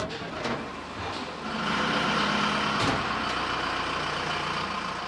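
Truck engines, on trucks loaded with food vats, chairs and tables, start up: a broad, low rumbling drone that grows louder partway through and then holds steady to the end.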